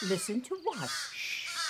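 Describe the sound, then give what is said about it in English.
A baby crow calls to its mother for food. A harsh, rasping cry follows a brief spoken question and trails off faintly. “What you're hearing is a baby crow, and it's telling its mama to feed it.”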